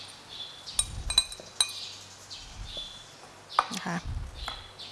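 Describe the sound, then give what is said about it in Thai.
A few light, sharp clinks of dishes sound as an egg yolk is put into a dish while an avocado salad dressing with low-fat yogurt is prepared. The clinks come in a brief cluster, then a few more scattered later over quiet background. “เราก็เริ่มจากนำไข่แดงนะคะลงมาใส่ในภาชนะก่อน”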